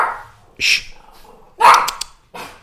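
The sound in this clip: A dog barks in short, sharp bursts, three clear barks spaced unevenly, loud against an otherwise quiet background.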